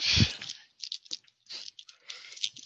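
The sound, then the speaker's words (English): Crunchy chewing of candy corn for eating ASMR: one loud bite at the start, then many smaller crunching and squishy chewing bursts in an irregular rhythm, with no talk. “While I eat this and give you guys some eating ASMR.”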